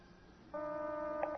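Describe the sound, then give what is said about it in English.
A telephone number being dialled gives a faint, steady electronic tone. It holds for nearly a second with a brief blip near the end. “I must have dialed it wrong. He's going through.”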